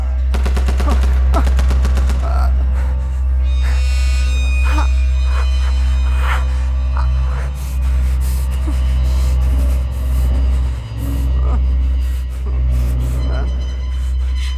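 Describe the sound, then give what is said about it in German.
Gunfire in a combat scene, attributed to an old Russian Mosin-Nagant sniper rifle: sharp cracks cutting through a constant heavy low rumble, with voices heard amid the shooting. “Für mich klang es wie ein altes Mosin-Nagant-Scharfschützengewehr aus russischen Beständen.”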